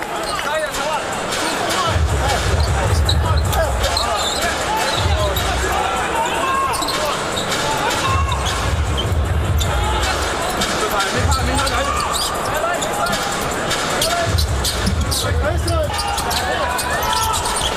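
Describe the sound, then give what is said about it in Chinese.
Basketball bouncing on the court during a professional game involving the Shanghai team, with many dull thumps repeating under a steady, loud wash of crowd hubbub. “小川非常奋力去抢这个篮板球落点，争球转换球权呢还是上海队球权。”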